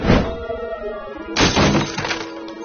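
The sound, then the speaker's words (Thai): A plate of beans shatters as a swung log strikes it. Two loud crashing impacts sound, one at the start and one about halfway through, and each is followed by noisy, clattering debris. “ชดินเหวี่ยงท่อนไม้หมายร่างพญานกพิราบแต่พลาดโดนจานถั่วแตกกระจาย”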